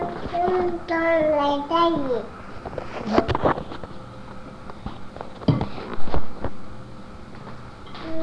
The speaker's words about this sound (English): he's babbling